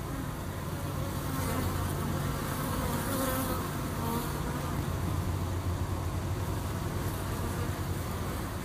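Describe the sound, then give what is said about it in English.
Bees buzz at a beekeeper's hives in a dense, continuous drone of many insects. The hum stays steady and even throughout, with no voices. “And that was the sound of our honeybees and... our apiary.”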